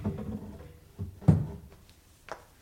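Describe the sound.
Cupboard being opened to take out a rifle, heard as a few wooden knocks and thuds, with one louder bump in the middle and a softer knock after it.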